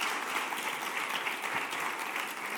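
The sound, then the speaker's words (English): Applause from a church gathering welcoming a speaker, a full, steady patter of many hands clapping at an even level, with no voices rising above it. “Can you give Josh a hand?”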